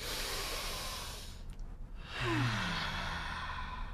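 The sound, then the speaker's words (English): Several people take one deep breath together, a breathy inhale followed by a brief pause and then a collective sighing exhale with a faint voiced tone, with no speech. “let's take our first deep breath of episode 7 all together now.”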